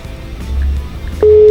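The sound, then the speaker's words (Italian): Ringback tone of an outgoing telephone call: after a stretch of low line noise, a loud, steady single-pitch tone starts near the end and holds unbroken. “adesso lo chiamiamo. Io spero che senza i tuoi, eh, nonostante i tuoi insulti, questo risponda. Secondo me non risponde, vediamo.”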